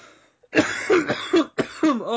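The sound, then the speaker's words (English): Harsh coughing from someone sick with a virus: a quick run of several rough, throaty coughs in close succession, loud and with no talking. “Excuse me again tonight, kids. I do apologize if I'm a little slow on the mute button for the coughage, but there is a virus going around my house.”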